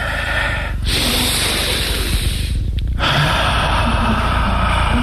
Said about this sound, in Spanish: ¿Se siente de ahí el aliento? Inspira tres veces.